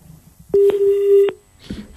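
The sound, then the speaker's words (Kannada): A telephone tone as a call is cut off: a single steady mid-pitched beep lasting under a second, with a click near its start and faint noises before and after. “ಕರೆ cut ಆಯ್ತು.”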